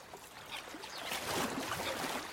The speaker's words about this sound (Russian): Рассвет. Над озером утренний туман. В воде плещется Ака.